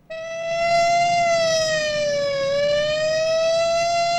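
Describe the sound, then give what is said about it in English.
A police car siren wails as the car arrives and swerves into a hotel car park: one loud, sustained tone that dips slowly in pitch and then climbs again. “The architect, looking somewhat startled, watches the arrival of the police car as it swerves into the car park and lurches to a halt by the hotel portico.”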